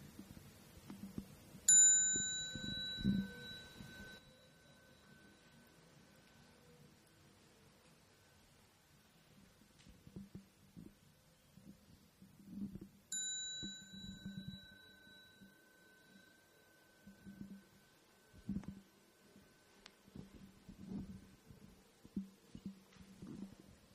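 Two clear strikes of a Buddhist khánh bell signal the assembly to stand and bow before morning sutra chanting. Each bright ringing tone decays slowly over a soft, continuous low rustle and shuffling.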